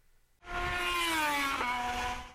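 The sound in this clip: Car engine hums as the vehicle drives to the Brno Circuit, a steady tonal drone that starts abruptly, holds at an even level and drifts slightly lower in pitch before easing off.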